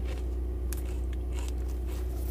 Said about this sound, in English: Beef flavored Lay's. Let's go ahead and give them a try.